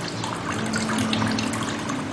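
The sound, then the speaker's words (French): Water is poured into an open hand for washing, a steady splashing trickle that runs evenly and fairly loud for about two seconds, with no voices. “vous prenez de l'eau et vous la versez dans la main gauche. ensuite, vous changez de main et vous la versez dans la main droite.”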